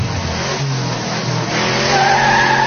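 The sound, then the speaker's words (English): A car speeds out of a parking lot with its tires skidding. A loud, sustained squeal rides over a roaring engine throughout and turns brighter and harsher near the end. “That's the sound of Touch leaving the parking lot.”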